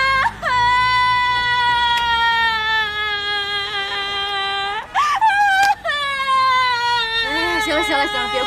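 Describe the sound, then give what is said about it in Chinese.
A woman crying and sobbing: long, loud, strongly tonal wails that break off twice near the middle, then resume with shaky, catching sobs toward the end. “行了，别哭了，我的妹妹哟，要咱进屋哭去吧”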